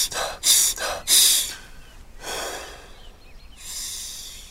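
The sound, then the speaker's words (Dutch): Forceful breaths blown out during a morning breathing exercise: a few loud, airy bursts separated by short pauses, with no talking. “Nog een keer uitblazen. En dan vast.”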